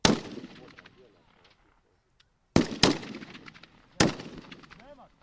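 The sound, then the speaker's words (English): Kalashnikov rifle gunfire from army cadets shooting at a target: four loud, sharp shots, two of them close together, each trailing off in a decaying rumble, with quiet gaps between. “aims his Kalashnikov rifle at a target some 300 meters away. He loads his weapon and receives the order to fire.”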